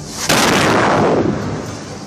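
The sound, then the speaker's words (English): A small warning missile strikes a target house in Gaza, a single sudden, loud blast followed by a long rumbling roar that slowly fades. “This is how the Israeli military is warning Palestinians of an impending missile strike in Gaza.”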